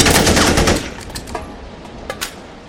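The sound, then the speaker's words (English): Automatic rifle gunfire: a loud, rapid burst of shots that fades out, followed by a few scattered sharp cracks. “You got a license for that automatic rifle”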